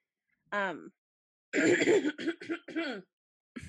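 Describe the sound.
A person clears junk from their throat, starting with one short rough grunt, then after a pause a run of several harsh, raspy clearing bursts in quick succession.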